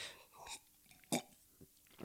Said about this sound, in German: ich nehme kurz einen Schluck, was ich trinke, erzähle ich später.